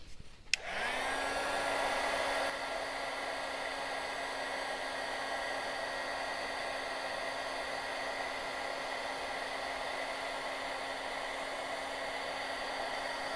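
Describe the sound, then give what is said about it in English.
A heat tool dries and heat-sets paint on a painted leaf, switching on with a click and then blowing a steady, loud whirring drone with a constant whine. It runs alone, with no talk, for about thirteen seconds. “once you're satisfied with your leaf, you're going to go ahead and heat set it.”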